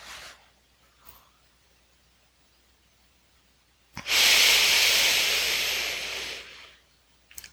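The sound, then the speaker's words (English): A deep, forceful exhale squeezing all the breath out: a long airy rush of about two and a half seconds that starts abruptly, stays strong, then gradually thins away, heard alone against quiet. “And last one, deepest exhale, squeezing it all out.”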